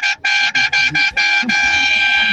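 Loud vehicle horn honking in a rapid series of about six short, bright blasts, then one long sustained blast, with steady harmonic tones and no talk over it.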